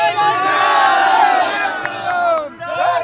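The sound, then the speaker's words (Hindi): Loud massed voices chant the slogan Jai Shri Ram at a gathering of sadhus and saints demanding a temple in Ayodhya. The crowd shouts in unison, dips briefly, then surges again. “जय श्री राम और मंदिर वहीं बनाएंगे के नारों के बीच कई साधु संतों ने कहा”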